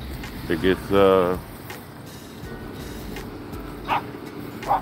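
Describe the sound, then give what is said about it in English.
Dog barking outdoors: a few barks, the loudest and longest early on, then brief, fainter ones later over a steady low background. “hey, there's another dog.”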